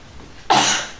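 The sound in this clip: A single sharp, breathy sneeze bursts out after a short quiet stretch, loud and broad, then fading over a fraction of a second.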